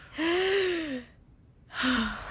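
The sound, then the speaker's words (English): A group takes one deep breath together: a long, loud, breathy surge, then a short quiet gap, then a second breathy surge with faint voiced tones. “before we hear the song again, let's all take one deep breath together”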